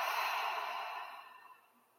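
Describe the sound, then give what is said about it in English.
A long, breathy open-mouth exhale during a breathing exercise, a soft airy rush that starts full and gradually fades to quiet over about two seconds. “And open mouth, exhale, release.”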